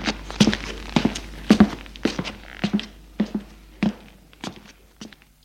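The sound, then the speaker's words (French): Footsteps climbing a wooden staircase: a steady series of many hollow thuds and knocks, fairly even in rhythm, each step a short dull impact with no voices. “Elle se lève et monte un escalier de bois.”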